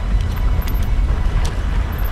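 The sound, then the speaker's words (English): A car driving off through the countryside gives a low, steady engine rumble, continuous and even in loudness across the short stretch, with no voices. “The teacher drives off.”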